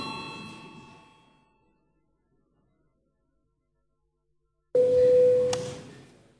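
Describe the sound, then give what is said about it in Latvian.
A bell rings in a parliament chamber to call members to a vote. After trailing speech and a silent pause, a loud, steady ringing tone starts abruptly, with a sharp strike partway through. “Lūdzu zvanu, balsosim par 406.”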